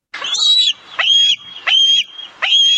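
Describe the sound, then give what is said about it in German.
An eagle calls four times in a row, each call a shrill, high-pitched scream with a sharp onset, evenly spaced and clear against a quiet background. “Adler? Ja, genau, ist der Adler.”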